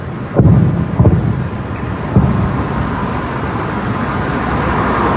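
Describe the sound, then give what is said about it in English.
Air defense rounds fired into the sky over Tehran with jets overhead: three dull, heavy booms in the first seconds, then a steady, loud low roar that carries on to the end. “You can hear some of the sounds of rounds being fired into the sky again as jets are overhead in, again, western Tehran, eastern Tehran.”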